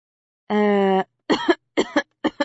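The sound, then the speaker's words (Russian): A coughing fit voiced by a narrator: a sustained, strained vocal sound followed by three short, loud coughs in quick succession. “На меня нападает кашель.”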